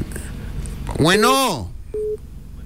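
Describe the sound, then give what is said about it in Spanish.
A telephone line tone marks an incoming call to a phone-in show, heard as one short, steady mid-pitched beep near the end, preceded by a louder gliding tone. “Tenemos llamada telefónica, vamos a ver quién está al aire”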